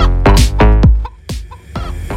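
A chicken sound effect clucks in a Brazilian funk party track, with loud, abrupt squawking calls: a quick run of clucks, then a few more spaced farther apart.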